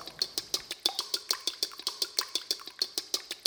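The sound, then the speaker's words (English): A whisk beats egg whites in a copper bowl. Many quick, evenly spaced metallic strokes tick against the bowl in a steady rhythm, fairly faint and without talk. “Once the butter is well blended into the mix, it's time to whisk the egg whites. This can be done much quicker in a copper bowl.”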